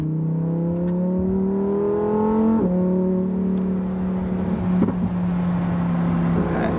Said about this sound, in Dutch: Dus achterwiel aangedreven en ook dus op droog met 640 pk. Ja, de Huracan Technica wil echt wel een beetje dwars gaan.